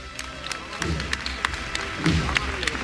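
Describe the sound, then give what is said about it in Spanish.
Scattered applause from onlookers at a religious procession with float bearers, many sharp, uneven claps under a speaking voice. “Martillo que suena, aplauso.”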